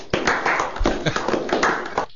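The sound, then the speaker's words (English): A round of applause rises to greet a guest: dense, steady hand clapping from a crowd runs through the whole stretch at even loudness, with no voices over it. “Let's warm everything up with a big, hot round of applause for Bill Clevland.”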